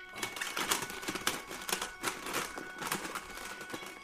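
Rummaging through luggage to pick out a cassette tape, with rapid, uneven clattering and clacking of hard plastic cases and rustling throughout.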